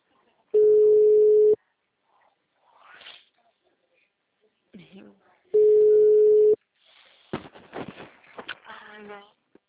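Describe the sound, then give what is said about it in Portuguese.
Telephone tones sound on a call to a busy number: two long, steady, mid-pitched beeps, each lasting about a second, with voices speaking between and after them. “Você acha melhor continuar ligando ou mandar no aplicativo agora? Hã? O número está ocupado.”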